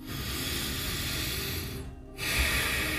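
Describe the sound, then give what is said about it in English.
Long, slow, deep breath taken during a guided meditation, a sustained airy hiss that stops briefly, then resumes as a second steady breath, soft and without talk. “Let's just take one more long, slow, deep breath together.”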